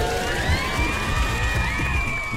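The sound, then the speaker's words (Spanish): Crowd cheering and shouting, loud and continuous, with high whooping voices rising over a busy roar for the whole stretch. “Aplausos, ojalá que hayan caído muchos goles.”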